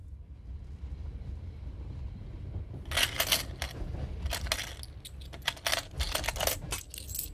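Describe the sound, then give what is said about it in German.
Coins being counted in a cash register till: a run of light metallic clinks and jingles, many irregular clicks over a low, steady hum, with no voices. “Hab nur das Geld in der Kasse nachgezählt.”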